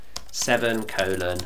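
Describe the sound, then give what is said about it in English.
Computer keyboard typing while meeting minutes are written, a few quick key clicks heard alongside a voice talking. “And I'll pretend that that's all we've got in this set of minutes, and I'll type the meeting closed at”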